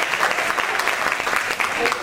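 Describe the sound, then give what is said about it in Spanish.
Audience applause at a stage show: dense, steady clapping that holds at an even loudness throughout, mixed with a few voices. “¿Qué les pareció? ¿Les gustó? ¡Sí! Aplaudan si quieren, ¿eh?”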